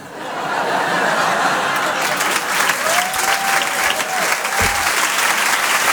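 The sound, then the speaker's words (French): An audience at a comedy club at the Apollo Théâtre in Paris applauds a comedian. The clapping swells within the first second and then holds at a steady, full level. “Bérangère Trieste, on peut l'applaudir très fort.”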